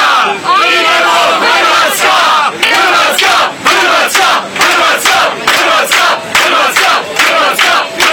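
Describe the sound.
Croatian football fans sing loudly aboard a plane flying to Russia. The massed voices chant and bellow together over sharp rhythmic claps that repeat steadily throughout.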